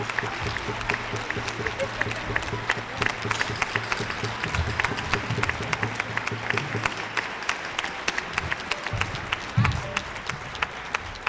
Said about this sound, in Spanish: Fuerte aplauso para ellos.